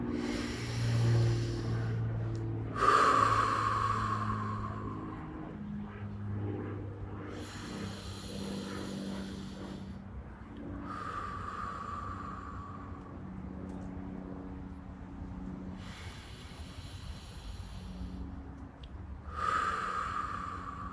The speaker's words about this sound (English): Let's take 5 big, deep breaths together.